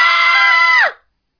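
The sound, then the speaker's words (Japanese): A single loud, high scream held steady for almost a second, its pitch sliding down as it cuts off abruptly into silence. “さーて、いきなり大悲鳴で始まってしまいました。”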